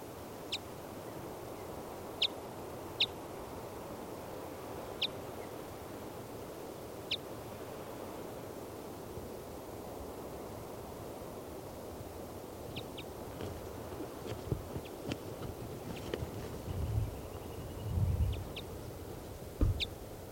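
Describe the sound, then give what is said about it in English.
Short high calls from a female bird near her nest at the top of a 40-foot lodgepole pine in a clearing. Several faint, sharp chirps come at irregular gaps over a steady hiss, with low rumbling near the end. “So recording, the female is off the nest in the top of a 40-foot lodgepole pine in the middle of the clearing. This is the female.”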